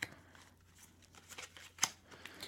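A deck of cards being shuffled in a recording studio, faint papery riffling and ticking with one sharper snap toward the end.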